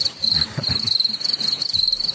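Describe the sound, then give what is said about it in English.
Cricket chirping played as a sound effect, a steady high-pitched pulsing trill that runs without pause. “Can you hit yourself with the crickets?”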